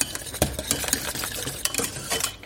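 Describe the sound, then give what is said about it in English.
A whisk works salt flakes into a hot mixture in a pan, giving a continuous busy scraping and tapping of metal against the pan with a steady rasp and no talking. “So I'll start by adding a pinch. Just crumble it between your fingers, crumble those flakes in. And then whisk it in.”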